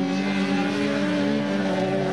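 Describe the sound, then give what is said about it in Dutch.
Race car engines roar as the cars speed through a muddy meadow. The sound is a loud, continuous, droning whine that holds at an even level throughout, with no pauses. “En echt met modder op de koplampen hier door dat weiland scheuren wie de snelste is. Nou ja, en dat klinkt dus zo.”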